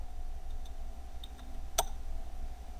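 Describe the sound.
A computer mouse left-click while installing a software package: one sharp, brief click stands out near the end, with a few fainter ticks earlier over a steady low hum.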